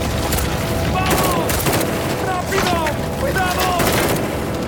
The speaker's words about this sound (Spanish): ¿Qué pasa? ¡Nos están disparando!